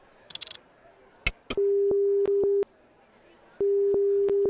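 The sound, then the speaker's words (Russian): A telephone line tone sounds after a number is dialed: a few faint clicks, then a steady, loud, low-pitched tone in two long stretches separated by a short silence. “Ага, гудок, так.”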